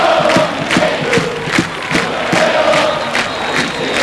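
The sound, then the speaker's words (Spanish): Crowd chanting at an Argentine second-division football match between Gimnasia de Jujuy and San Martín de San Juan, with home fans in full voice. Loud, steady massed voices pulse in a regular rhythm throughout. “Que termine ya, dice todo el público, pero tienen que alentar.”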